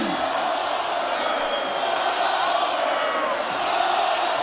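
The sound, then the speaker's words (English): Wrestling arena crowd chanting Goldberg's name, a sustained mass of shouting voices that stays loud and fairly even throughout with no break. “Oh, they were cheering him a minute ago. What hypocrites these losers are. Listen to him chant Goldberg.”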